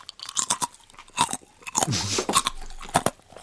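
Crunchy nori seaweed being chewed: many crisp, irregular crunches and bites in quick succession, fairly loud and with no talk over them.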